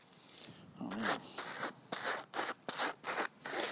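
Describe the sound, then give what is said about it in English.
Hand carders being scraped clear of leftover fiber: a series of short rasping, brushing strokes in an uneven rhythm, quiet and separated by brief gaps. “let's clear the cards first because there's a lot of fiber on here still”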